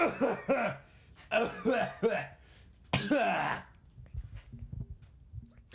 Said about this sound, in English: There is something in my throat. Give me a second.